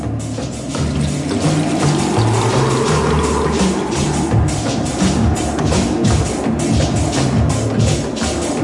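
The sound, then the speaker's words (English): Water drops patter on small leaves in a dense, steady wash of splashing with no pauses, fairly loud and unchanging over its whole length. “The pattering of the drops on the little leaves.”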